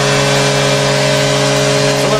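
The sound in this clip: An ice hockey arena horn sounds at the end of a game: a loud, steady, deep harmonic blare held without a break from start to finish over a noisy background.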